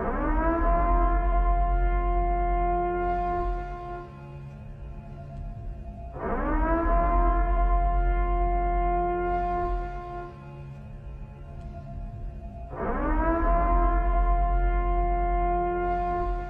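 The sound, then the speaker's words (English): Civil-defense-style warning siren from a horror film: three long, loud wails, each rising quickly to a steady held tone before dropping away, repeating at a regular pace. “What you just heard was, of course, the Purge siren.”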